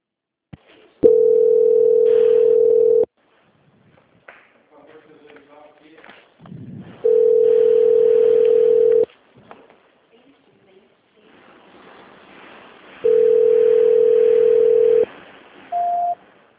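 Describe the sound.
Telephone ringing tone on an unanswered call transfer: three long, steady, even-pitched tones at regular intervals, with faint voices and shuffling between them and a short, higher beep at the end.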